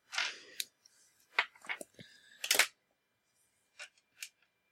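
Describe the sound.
Faint clicks and rattles of dice rolled for a Deadlands Noir tabletop roleplaying game: a few short bursts of clatter, then two isolated clicks.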